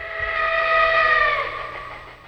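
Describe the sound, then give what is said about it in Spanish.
A toy electric train with a locomotive and several wagons on a track gives a steady, reedy, whistle-like tone over a low rumble. It holds for about two seconds and then fades. “Este es el tren eléctrico, un juguete muy popular antes de los videojuegos. Tenía una locomotora, varios vagones y un circuito de vías que se montaba como un puzzle,”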